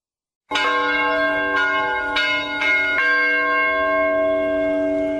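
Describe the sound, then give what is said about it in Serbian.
Church bells ring out at a parish jubilee in Koprivna: five loud, resonant strikes in quick succession, followed by a long, sustained metallic hum as the bells sound on. “Zvona sa hrama Vaznesenja Gospodnjeg od jutarnjih časova pozivala su parohijane na vredan jubilej.”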